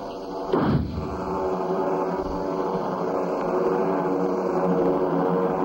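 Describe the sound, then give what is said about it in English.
A flare gun fires once, a sharp whooshing burst that quickly trails off, followed by a steady low drone that continues to the end. “throw me that flare gun. Yes, sir. Here goes.”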